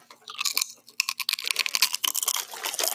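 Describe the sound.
Someone crunches on sour chips, producing rapid, brittle crackles in an irregular chewing rhythm, loud and dense throughout.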